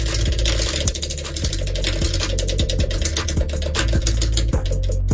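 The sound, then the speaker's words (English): A prize wheel spins in a call-in giveaway, its ratchet clattering in a long run of rapid, fairly even clicks over a faint mechanical hum, with no voices. “Spin the wheel. Okay, here we go.”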